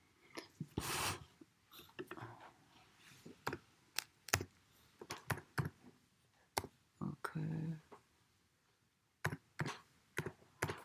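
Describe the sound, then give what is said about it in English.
Typing on a computer keyboard during an online meditation group webinar: irregular bursts of many soft, quick key clicks with short pauses between, faint and with no voices. “Thank you. I can type that in.”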